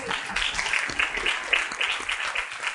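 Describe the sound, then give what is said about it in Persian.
Audience applause fills the whole stretch as a dense, steady patter of many hands clapping, fairly loud and even with no talk over it. “یه دست به افتخارش بزن.”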